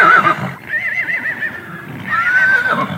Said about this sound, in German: Das sind nämlich tatsächlich Mustangs, also Wildpferde, so wie man es sich im Film vorstellt bei echten Cowboys